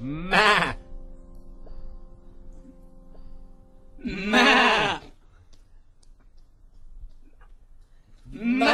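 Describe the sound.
A voice imitates a sheep bleating, giving three wavering, nasal bleats spaced about four seconds apart, the last one cut off at the end.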